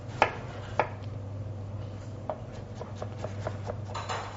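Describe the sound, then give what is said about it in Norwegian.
Knife slicing a peeled vegetable into slices on a board: two sharp knocks, then a run of lighter, quicker taps as the blade cuts through, fairly faint with no talk. “Drar av skallet. Skjærer den også i skiver.”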